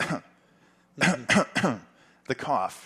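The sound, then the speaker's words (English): A man imitates a woman's fake, pointed cough aimed at a cigar smoker: a short cough, a pause, a quick cluster of three harsh coughing bursts, then a couple more throaty bursts, all vocal and fairly quiet. “the cough. Yeah, fake cough that no one ever wants to hear if they're a cigar guy.”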